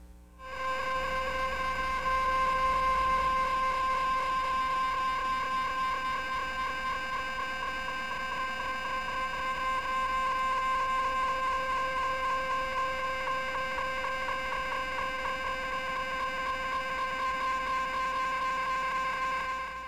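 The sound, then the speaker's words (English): Radio signal of pulsar 1937+21 rendered as sound, a steady buzzing tone rich in harmonics that holds unchanged at an even loudness for the whole stretch, with no talk. “What about pulsar 1937 plus 21? It's near the boundary of the northern constellation.”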